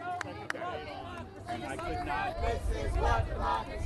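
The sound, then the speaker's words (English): A crowd gathers at a Green Party political rally: overlapping voices and chatter build into a broad murmur that grows louder toward the end. “A crowd is starting to gather.”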